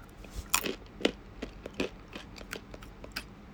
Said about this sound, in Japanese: なんでアーモンドって噛むと歯がキュッキュッって言うんだ